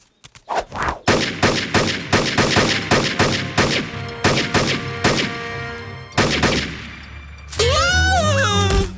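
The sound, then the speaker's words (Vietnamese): Gunfire from repeated shooting at targets: many sharp, loud single shots in an uneven rapid series, some with brief gaps, before a wavering, voice-like tone takes over at the end. “Tiếng súng. Tiếng súng.”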